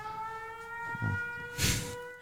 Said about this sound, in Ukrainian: Все, у нас прозвучав відбій повітряної тривоги, і ми можемо повернутися до нашого запису.